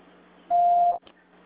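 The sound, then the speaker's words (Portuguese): A voicemail beep sounds as one steady mid-pitched tone lasting about half a second, then cuts off, followed by a tiny faint blip and near silence. “Sua chamada está sendo encaminhada para a caixa de mensagem e será sujeita a cobrança após o sinal.”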